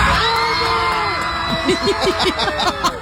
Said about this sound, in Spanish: Y cuando dijo enhorabuena a los argentinos que iban en pleno vuelo, Andreina, estallaron en júbilo.